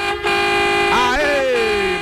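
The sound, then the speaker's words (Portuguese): A car horn honks in a single long, loud, steady blast that lasts almost the whole clip. “Uma buzina? É, toca a buzina.”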